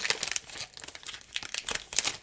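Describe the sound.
A wax pack of Topps Stadium Club trading cards is torn open: rapid, uneven crinkling and crackling of the wrapper, with many quick bursts and a few sharper rips. No voices are heard.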